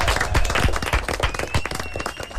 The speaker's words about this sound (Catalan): Vinga, un aplaudiment per Walter.